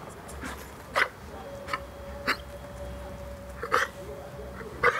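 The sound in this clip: A dog gags and hiccups after swallowing too hastily: a few short, sharp spasms at irregular intervals over low, steady background noise.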